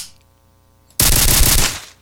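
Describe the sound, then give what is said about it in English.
Uzi submachine gun in a video game firing a loud burst, a sudden dense roar of rapid shots that starts abruptly after a near-silent pause and lasts under a second before cutting off. “Now, what's burst fire like with an Uzi? I would not want to be in the way of those bullets.”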